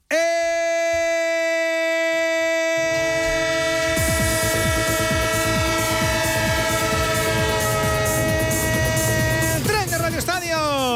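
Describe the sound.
Train sound effect: a sustained, steady train horn chord sounds throughout, joined after a few seconds by rhythmic wheel clatter on the rails. Loud and continuous, with the horn's pitch wavering near the end.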